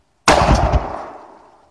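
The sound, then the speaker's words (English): A single loud blast from a Remington 870 Express pump shotgun loaded with heavy shot and fired from a lead sled, a sharp crack that trails off into a decaying boom. “the Remington 870 Express. Safety's on, chamber's closed. Got the Jebs in, it's tight, secure, going hot, safety off.”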